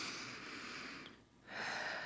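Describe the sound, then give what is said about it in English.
A deep breath taken during a group's closing prayer: a soft, steady airy rush that dips briefly in the middle and then resumes, with no talk over it. “So let's take a deep breath again.”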